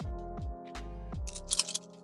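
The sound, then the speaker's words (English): Dice clatter and tumble across a table during a tabletop roleplaying game, a brief burst of light, clicky rattling near the end that follows lower droning tones. “Oh my god, I've never seen my dice roll like that before. It was spinning.”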